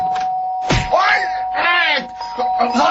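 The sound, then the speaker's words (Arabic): A doorbell rung insistently, its steady tone running through the whole clip while voices groan and wail over it. “ده مين قليل الذوق اللي مش عايز يشيل ايده من على جرس الباب ده؟”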